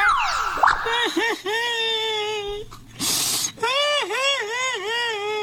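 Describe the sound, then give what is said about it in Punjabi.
A man cries and wails over his dead hen in a comedic skit, with long, drawn-out, quavering sobs that dip and rise in pitch, broken midway by a harsh breathy burst before the wailing resumes. “ਕੀ ਹੋਇਆ ਤੂੰ ਇੰਨਾ ਰੋ ਕਿਉਂ ਰਿਹਾ”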